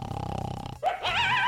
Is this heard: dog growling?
yes